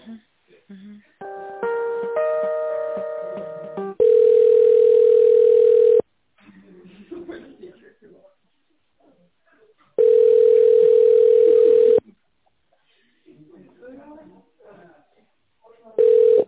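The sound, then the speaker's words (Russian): A telephone ringback tone plays while a call is transferred: two long, steady beeps and a third cut off at the end. Brief stepped electronic tones come first, and faint talk fills the gaps between the beeps. “Сейчас переключу Инессу Николаевну.”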